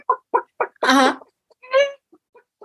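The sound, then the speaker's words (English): A person imitates a hen's cackling egg song after laying an egg: three short, clipped clucks, then a long, loud, drawn-out squawk, a second shorter cackle, and a few faint trailing clucks. “They start cackling real loud out there. Yep. Yeah, we call it the egg song.”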